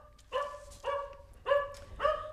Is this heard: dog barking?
yes